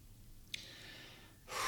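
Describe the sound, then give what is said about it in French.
A person catches their breath and breathes heavily: a quick, faint gasp is followed by a drawn-out breath, then a stronger, louder exhale at the end, with no speech. “Je reprends mon souffle”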